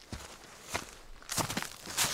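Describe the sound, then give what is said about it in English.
Footsteps of people walking along a trail to Holmes Lake: several soft, crunchy steps in an uneven rhythm, with the later steps louder and brighter, over a steady, hissy background. “So, just walking in along the trail to Holmes Lake with my dad.”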